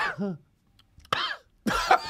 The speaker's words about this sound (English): You retracted with every cough then.